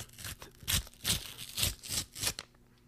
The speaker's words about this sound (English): I'll just rip it